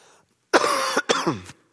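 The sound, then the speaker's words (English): A person coughs in a few harsh, rough bursts, one long hacking cough followed by two shorter ones, loud and with no talk over them, despite a cough drop. “Pardon me. Cough drop's not doing its job.”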